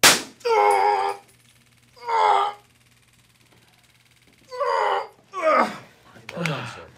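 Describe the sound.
A man groans after a taser shock during police training, falling onto a padded mat: a few drawn-out, strained vocal bursts with short silences between them.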